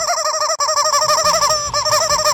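Fowl calls, likely a chicken clucking: a rapid, continuous run of many short, bright, arching notes, loud throughout, with a brief break early on and another near the end.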